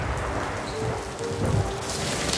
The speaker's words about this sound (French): Cette nuit-là, un orage frappa la ville.